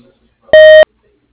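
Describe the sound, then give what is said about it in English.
A voicemail beep tone sounds once on its own after near silence, a loud, pure electronic tone lasting about a third of a second and ending abruptly. “please stay on the line and wait for the tone.”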